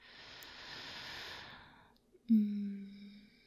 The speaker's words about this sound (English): To just breathe. Deeply for me.